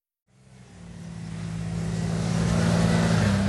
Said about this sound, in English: Dozens of Israeli armored vehicles drive away from Gaza early this morning.